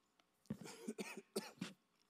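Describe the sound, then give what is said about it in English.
A few hoarse, throaty coughs from a person in the middle of a church teaching, the bursts coming in quick succession with a brief pause between them, fairly loud against near silence. “I'm going to be doing that a couple times throughout today, so be prepared for a little bit of cough here and there”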